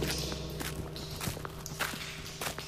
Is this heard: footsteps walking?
yes